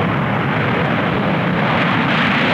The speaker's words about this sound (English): 2 B-1 bombers took off for Bahrain from Ellsworth Air Force Base in South Dakota.